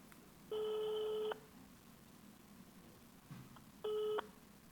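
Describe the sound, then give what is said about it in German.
Ringback tone of an outgoing telephone call: two steady, buzzy tone bursts, the first about a second long, the second shorter and cut off at the end, separated by quiet line hiss. “So, und jetzt rufen wir den Florian an.”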